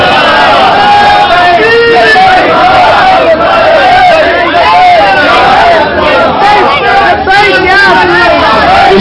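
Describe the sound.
A large crowd chants a religious slogan at a sermon gathering, many voices shouting together loudly and continuously in rising and falling waves.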